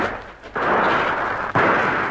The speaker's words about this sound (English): Those shots are going close.